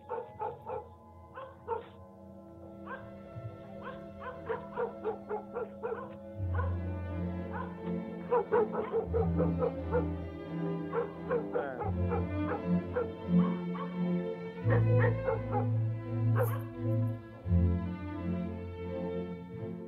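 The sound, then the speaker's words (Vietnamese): Dogs barking in a village at night, with many faint, repeated barks and yelps in a steady rhythm over a low, continuous drone. “Đâu đó ở trong làng chỉ còn lại tiếng chó cắn ma hướng ra phía cánh đồng nhấm nha nhấm nhẳng đến rợn người.”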